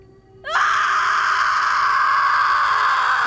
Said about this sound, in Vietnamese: Một tiếng thét chói tai vang khắp căn phòng. Âm thanh này khiến cho tai của tôi đau nhức.